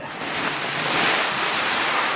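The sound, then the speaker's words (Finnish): Wheat grains being poured into the dryer at a grain mill make a continuous, loud rushing hiss, steady and even throughout, with no voices. “Eli me ollaan nyt suuri osa kaadettu vehnistä tänne jo. Ja nyt kaadetaan niinku vehnäjyvät tänne”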